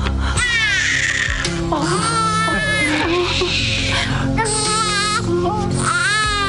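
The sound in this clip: A newborn baby girl crying: repeated high, quavering wails in several bursts with short breaths between them, loud and steady throughout.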